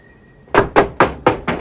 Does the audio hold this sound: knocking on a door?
yes